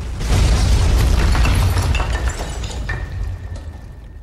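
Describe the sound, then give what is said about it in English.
A bomb blast explodes and fills a building: a loud, deep boom with rumbling low end and crackling, shattering debris noise that slowly subsides over several seconds. “A bomb blast closes the hatch and blows Red beyond reach. The fire explodes, and the blast fills every corner of the building.”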